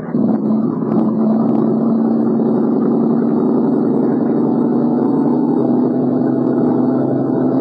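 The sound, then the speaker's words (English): A boat's engine drones loud and steady at sea during a survey run, a low, even hum with no clear rise or fall in pitch. “Okay, Michelle, keep the same heading. We're going to box off an area half a mile square. Rev it up.”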